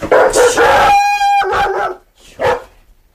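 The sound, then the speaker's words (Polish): Dogs barking at a house as visitors arrive: a few loud, sharp barks, one drawn-out high-pitched yelp, and a final bark after a short pause. “Teraz uwaga, bo mogą psy szczekać.”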